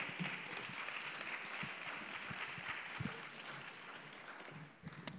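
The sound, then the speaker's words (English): Audience applause at a church ministry gathering as ministry leaders come up: faint, steady, continuous clapping throughout, with a few sharper claps standing out near the end. “Please give them a hand as they come.”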